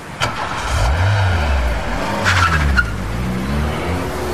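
A car speeds past with a loud engine roar whose pitch swings up and down, and a short tire squeal from skidding cuts in around the middle. No voices.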